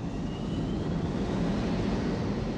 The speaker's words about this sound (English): The jets themselves are not that interesting. They sounded kind of wimpy.